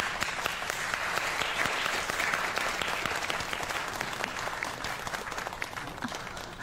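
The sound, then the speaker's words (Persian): An audience applauds as a school principal is welcomed at a school gathering: dense, steady clapping from many hands that runs the whole length and eases slightly toward the end. “لطفاً خانم جانسون رو تشویق کنید”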